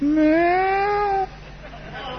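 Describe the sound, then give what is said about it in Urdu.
A human voice imitates a weak, sick cat with fever, giving one drawn-out, whiny meow that rises slightly in pitch before fading into quiet. “میں نے آہستہ سے پاٹ ادا کیا ہے تاکہ صحیح بیمار بلی کا پاٹ ادا کر سکوں۔”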